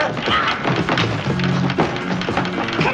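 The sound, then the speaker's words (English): Someone trapped inside a padlocked coffin bangs on the lid with several dull thuds and knocks, while voices talk over the banging. “It's been locked shut, and he's banging on the lid.”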